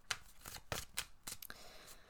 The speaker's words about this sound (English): I am going to go ahead and get my tarot deck. Okay, let's pull a card for this week